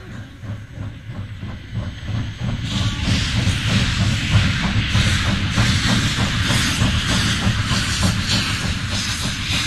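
A southbound passenger train travelling on rails gives a loud, steady rumble with hissing and a rhythmic clickety-clack of wheels over the track joints. It stays continuous throughout, with no voices.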